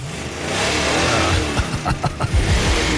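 A combustion-engine car revs hard: a steady engine drone gives way in the second half to several sharp throttle bursts whose pitch climbs and drops, loud and without voices.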